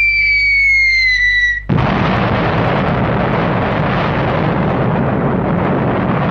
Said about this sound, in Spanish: Bomba atómica. Hizo este ruido.